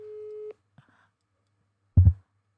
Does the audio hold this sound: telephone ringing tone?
yes